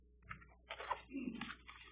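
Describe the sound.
Scissors cut through paper in a circle, making a few quiet, crisp crunching snips separated by short pauses.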